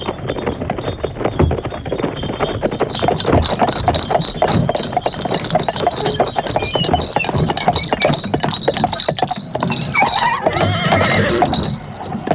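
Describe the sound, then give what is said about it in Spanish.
A horse-drawn coach driven by postilions sets off at a brisk trot, with steady, rapid clip-clop of hooves and an occasional whinny. The loud, continuous hoofbeats keep an even rhythm throughout. “Los tres subieron al coche sin perder tiempo. Los postillones habían recibido ya instrucciones y se pusieron rápidamente en camino, a un paso rápido, a una buena velocidad.”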